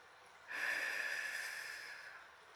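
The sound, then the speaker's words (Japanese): Long, slow exhale of breath during a guided breathing exercise: a soft, steady airy rush that starts abruptly, holds for about two seconds and gradually thins out, with no voices. “まずは吸って。長くゆっくり吐いて。”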